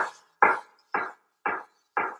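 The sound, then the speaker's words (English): A knife dices an onion with five evenly spaced, crisp chops about half a second apart. Each is a sharp hit with a short decay, and there is no talk. “And then I spin the flat end away from me again and go right through, and onions are perfectly diced.”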